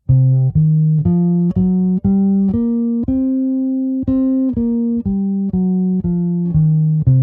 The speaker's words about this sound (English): we're gonna insert an example of the blues scale right about here.